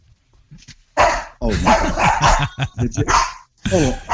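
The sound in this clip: A dog barks as someone comes home, giving a burst of loud, uneven barks and yips that overlap with a person talking.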